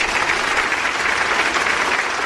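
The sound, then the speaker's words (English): A round of applause: dense, continuous clapping at a steady loud level across the short stretch, with no voices. “I'm going to kick things off with a round of applause.”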